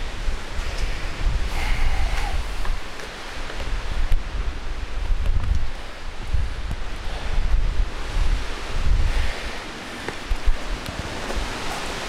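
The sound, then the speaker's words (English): Strong wind whips across a mountainside near the treeline, a roaring, hissing rush that surges and eases in uneven gusts and buffets the microphone. No one speaks. “you can hear the wind just whipping”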